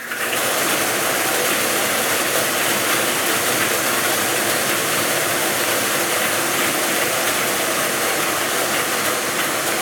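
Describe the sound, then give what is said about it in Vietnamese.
Five lottery ball cages spin together for a Kien Giang lottery draw, making a steady, dense mechanical rattle and whir that runs unbroken and evenly loud throughout, with no talk. “Giải này được quay 5 lồng cầu và quay một lần. Mời 5 em quay số.”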